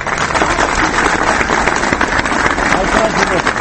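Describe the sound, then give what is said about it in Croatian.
Supporters in central Belgrade applaud while carrying boxes of signatures. Dense, continuous clapping fills the whole stretch, with talk running over it. “Aplauz pristalica koje su centrom Beograda pronele kutije sa potpisima više od 300.000 ljudi.”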